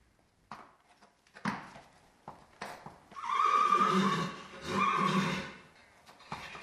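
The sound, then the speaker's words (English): A former racehorse neighs at its stables in Broken Hill, giving a loud, drawn-out, quavering whinny in two surging parts after a few soft, scattered sounds. “That's the sound of Sydney. He used to be a racehorse.”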